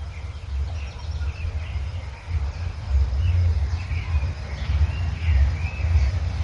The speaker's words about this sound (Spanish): Estamos escuchando un contrapunto de distintos pájaros. Vemos como uno le canta y el otro le contesta.